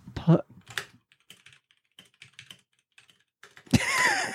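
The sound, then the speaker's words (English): Frantic typing on a computer keyboard comes in quick, irregular bursts of soft key clicks separated by short pauses, ending in a louder, denser burst of sound. “I love how frantically it sounds. The sentence I've just typed in is so illiterate. One second, I'll paste it to you so you can read it. The way you were typing it sounded like it was all very.”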